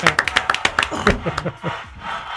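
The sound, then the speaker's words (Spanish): Applause for the doctors on a TV show: a quick run of sharp, rhythmic claps that gives way to voices talking and laughing. “¡Un aplauso para ellos, Willy! ¡Un aplauso para ellos!”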